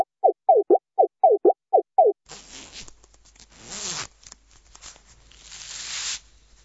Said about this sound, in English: What you are hearing is the waiter opening his jacket and showing his fur to his clients.